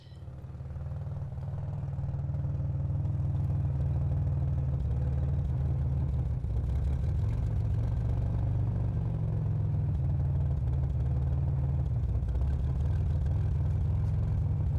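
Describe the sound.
Car engine rumble heard from inside a closed trunk: a low, steady droning hum with vibration that swells over the first two seconds and then holds level, with no voices.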